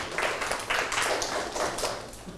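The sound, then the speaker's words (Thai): Classmates clap for a student who answered correctly in a school lesson, a short run of crisp, uneven hand claps rising and falling in loose bursts at moderate loudness. “โอเคปรบมือให้เพื่อนถูกต้องเลย”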